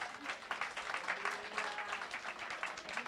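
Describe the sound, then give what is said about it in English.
An audience claps steadily in a dense, continuous round of applause at moderate loudness. “Let's give her a hand. Come on.”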